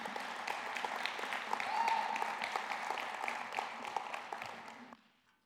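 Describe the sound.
An audience applauds to welcome a speaker with dense, steady clapping that holds for about five seconds before quickly fading out.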